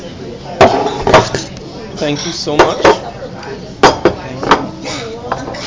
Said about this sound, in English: Yes, that's the sound of our breakfast coming in.